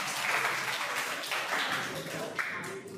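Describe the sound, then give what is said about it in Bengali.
Faint classroom clapping as pupils applaud a student's correct answer, a quiet, steady patter of hands mixed with murmuring voices. “দেবজিতের জন্য একটা হাততালি হোক, খুব ভালো।”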